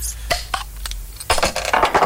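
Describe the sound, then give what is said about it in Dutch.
Beer poured into a glass: a few sharp glassy clinks, then a louder, dense rushing stretch as the beer flows in. “En dat schenkgeluid is altijd zo fijn. Hop, glas erbij.”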